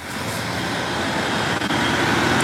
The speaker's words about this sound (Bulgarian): От тук, от Кресна, виждате зад мен, автомобилите продължават да паузят буквално през вътрешността на града.